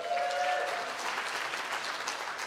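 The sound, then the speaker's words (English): A church audience applauds for the church campuses joining the service. The clapping is dense and steady throughout, with no break. “Can we give it up for our campuses that are joining us?”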